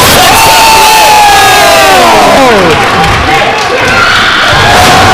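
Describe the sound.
A loud pro wrestling crowd cheers and roars in reaction to a missile drop kick off the top rope. The noise stays dense and steady throughout, with mixed shouting voices.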